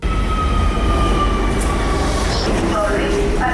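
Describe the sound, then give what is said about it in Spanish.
Metro train running through an underground line, a loud, steady rumbling roar with high metallic whines and squeals drifting through it. “Nuestra compañera Inma Morán ha bajado al metro para hacer el mismo recorrido que hizo el convoy siniestrado”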